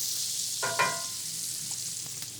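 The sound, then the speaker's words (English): Yellow onions sweat in leftover bacon fat in a skillet over medium-low heat, giving a faint, steady sizzling hiss with a couple of soft pops and crackles. “So I'm going to add 1/2 cup of yellow onion. And we're leaving all that bacon fat in there. We're over kind of a medium low heat right now. We're just looking to sweat these onions down.”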